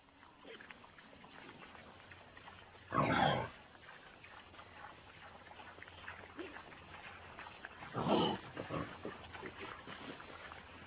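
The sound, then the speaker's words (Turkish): Wild boar grunting, two short, rough, breathy bursts spaced several seconds apart over a faint, noisy background. “Wild boar. Erkek domuz.”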